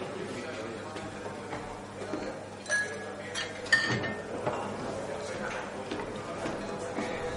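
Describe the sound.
Glass clinks as a waitress serves a gin and tonic in a tall tumbler packed with ice. A couple of brief, bright clinks with a short ringing tone stand out over a low murmur of voices.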